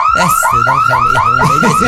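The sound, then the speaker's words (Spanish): A loud car alarm going off, a harsh electronic warble of rapid, repeating rising sweeps that continues steadily throughout. “Ha dado la alarma.”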